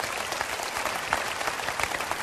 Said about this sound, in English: Believe me, you're clapping more for Brenda's patience than you are for me.